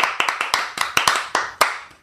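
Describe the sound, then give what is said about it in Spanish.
Applause for a guest on a radio programme: sparse, sharp handclaps from a few people in an irregular rhythm, each clap crisp and quickly decaying. “Un aplauso, por favor.”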